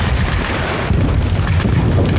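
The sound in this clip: Artillery bombardment during a military assault: a dense, continuous low rumble of overlapping booms with no clearly separate blasts, loud and steady from start to finish.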